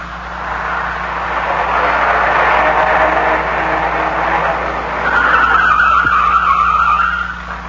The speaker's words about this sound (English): I grabbed the wheel in the nick of time. We almost dropped off an incline. I pulled to the side and shut the motor.